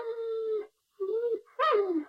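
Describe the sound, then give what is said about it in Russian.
A dog whimpers plaintively from an iron kennel in a garden at night, giving three drawn-out, tonal whines separated by short silences, the last one sharper and sliding downward in pitch. “а в саду жалобно скулила собака в железной конуре.”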